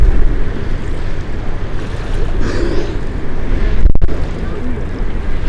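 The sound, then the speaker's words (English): Wind blowing outdoors during field observation of a foraging animal, a loud, continuous low rumble of buffeting across the microphone throughout, with a brief sharp click near the middle. “Damn, this wind.”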